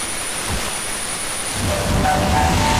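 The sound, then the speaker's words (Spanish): A metro train arrives at a station with a low rumble that swells louder in the second half. Faint high, whining tones appear near the end as it slows. “El metro que llega.”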